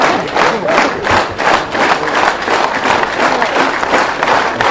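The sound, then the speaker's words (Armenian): Stormy applause greets the Gyumri mayor at a book presentation as he is escorted onto the stage. Loud crowd clapping falls into a fast, rhythmic unison beat, with the hands pulsing together throughout. “Մշակույթի գործիչների ելույթներից հետո երբեր տհասավ Գյումրու քաղաքապետ Վարդան Հուկասյանին, նրան բեմ ուղեկցեցին բուրըն ծափահարություններով։”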